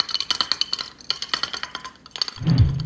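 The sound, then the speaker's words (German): Glass clinking as a bottle of beer is handled and opened, a quick run of many bright, sharp clinks that pause briefly and resume, ending with a duller low thud. “Ich denke mal, jetzt kann ich mir ganz entspannt ein Bier aufmachen.”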